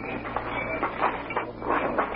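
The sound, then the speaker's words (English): A train in a railroad freight yard on the outskirts of a city gives a steady low rumble broken by rhythmic clattering bursts of metal on rail. “meet him at the railroad freight yards on the outskirts of the city.”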